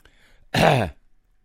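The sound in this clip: One short, rough throat clearing comes from a preacher with a tickling throat during a sermon. It is a single harsh burst, loud against near silence.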